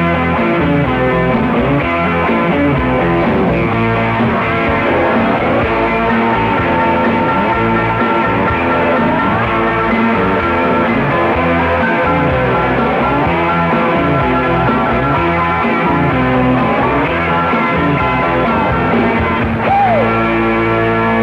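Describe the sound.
A song plays loud and continuous, with a full band backing a singing voice that carries the melody throughout, steady in level with no pauses.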